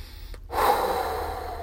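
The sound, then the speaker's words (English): A slow, deep breath is drawn in as part of a calming exercise. It starts after a short silence, then becomes a soft, airy rush that holds steady to the end. “take a few deep breaths in”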